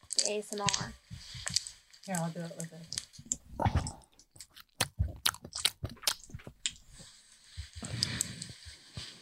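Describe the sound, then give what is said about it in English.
Honeycomb being chewed in an ASMR video, with many wet, sticky squishes, crunchy bites and small clicks in an irregular run, and voices at moments. “Yeah, she's eating honeycomb.”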